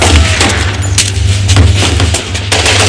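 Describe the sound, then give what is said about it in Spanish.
Gunfire exchanged between police and gunmen, with many sharp shots crowding together over a constant loud low rumble. “Varios policías corren tras ellos armados con pistolas. Chema cruza la furgoneta delante del Mercedes y Amaya abre la puerta lateral del vehículo. Policías y etarras intercambian disparos.”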